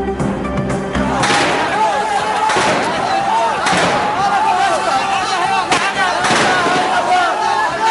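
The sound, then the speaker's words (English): Several heavy explosions boom out as a ruler's compound in Tripoli, Libya comes under attack, each a sharp broad burst spaced a second or so apart over a constant loud roar. “Several explosions rocked the Libyan capital Tripoli as the embattled ruler Gaddafi's compound comes under attack.”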